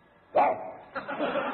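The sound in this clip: A man's voice imitates a dog bark, aimed at a dog in a narrow alley: one loud, gruff bark-like shout, then a quieter, drawn-out vocal sound trailing after it.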